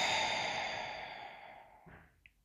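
A long breath out through an open mouth during a relaxation tapping exercise, a soft breathy rush that fades steadily over about two seconds, followed by a faint short sound.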